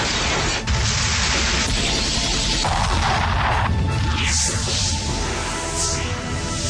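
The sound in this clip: Explosions and crashing noise from a trailer for the video game Time Crisis 2 form a loud, dense, unbroken roar with whooshing swells and heavy booms throughout.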